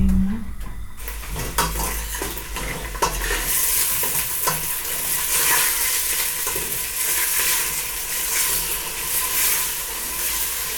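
Onion fries and softens in a pan for a sweet-and-sour chicken sauce, a steady sizzle with a utensil scraping as it stirs and occasional clinks of cookware.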